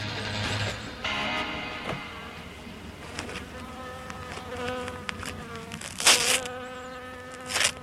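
Honeybees buzz at a retired beekeeper's hives in a small village in the Gers, southwest France: a continuous droning hum that shifts in pitch as insects pass, with a few louder, closer swells near the end and no talk.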